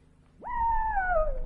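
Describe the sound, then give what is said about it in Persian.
A wolf howls after being struck by a thrown stone: one howl that rises quickly, holds a steady, slightly wavering tone, then sinks a little at the end, heard alone. “گرگم زوزه کشید و فرار کرد.”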